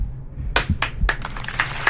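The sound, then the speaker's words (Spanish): Scattered audience applause starts slowly after a short quiet moment, a few sparse, separate claps that never build into a full round of clapping. “Bueno, a ver ese aplauso.”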